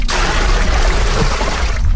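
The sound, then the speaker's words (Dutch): Water pours into a small bucket set in a tub beside a stream, a loud, continuous rushing splash that lasts about two seconds with no voices. “Dus, kijk, emmertje in de bak. Water erin, ja.”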